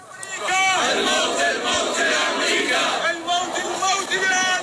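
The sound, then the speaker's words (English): Crowd chanting at a funeral in Baghdad for fighters and Iranian security advisors killed in strikes: many voices shout in unison, loud and sustained, with a rhythmic rise and fall of massed chants throughout. “So that was in Baghdad, and the chants are death to Saudi rulers and death to America.”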